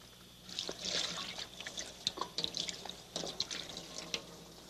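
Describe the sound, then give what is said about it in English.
Water trickles and drips as something is rinsed out, with faint, irregular splashes over a soft, steady flow. “I think I'll just wash this out.”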